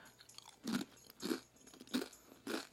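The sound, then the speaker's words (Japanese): Someone bites into crunchy corn tortilla chips (Dontacos). Four crisp crunches come at fairly even intervals, quiet and close, with no talking over them. “ちょっとドンタコス食べていい”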